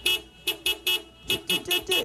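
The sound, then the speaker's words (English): A horn tooting the rhythm of a familiar New Zealand sports chant: eight short, loud, bright honks, a single blast, then three quick ones, a pause, then four more in a bouncy beat. “You can stomp it at a sports game or toot it on a horn like this.”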